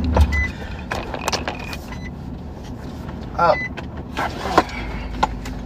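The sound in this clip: A car driving, with a low steady road rumble throughout, a brief whirring motor sound like a power window partway through, and a few scattered clicks and rattles over the hum.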